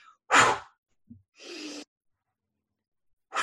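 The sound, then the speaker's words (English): Heavy, sharp recovery breaths out, performed by a person imitating a swimmer's exhales after a lap: a loud, forceful burst, then a softer, longer breathy exhale, with another starting at the very end, separated by silence. “So really heavy, sharp breath out, blowing off some of the excess CO2.”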